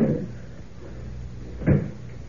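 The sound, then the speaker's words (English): A closet door with a strong lock being shut and locked: one solid clunk near the end, preceded by a quieter knock of handling at the start, with little else around it. “There we are. Door's locked, and I've got the key.”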